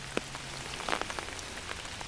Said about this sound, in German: Es regnet unaufhörlich an diesem Maitag. Die Regentropfen fegen über den Regenschirm, den mir Sven Keller schützend über meinen Kopf hält.